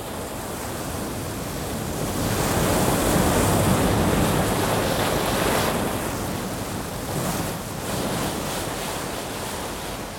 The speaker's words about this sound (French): Le souffle dépasse les 120 km/h. L'état de la mer est exceptionnel. L'air est plein d'écume et d'embrun. Visibilité fortement réduite, vague supérieure à 14 mètres.